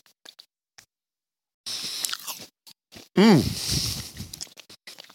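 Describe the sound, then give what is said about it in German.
Biting and chewing a Gala apple with cheese: crisp crunches break a near silence, then come bursts of moist, crackly chewing, moderately loud and uneven in rhythm. “Kannst du jetzt gerne auch nochmal Gala probieren und das da mit Käse.”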